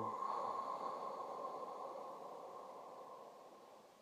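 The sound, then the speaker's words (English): A slow, deep exhale with sound during a guided breathing exercise, a faint, steady breathy rush that sustains alone for about four seconds and gradually fades. “Inhaling. Exhaling long and slow and deep with sound.”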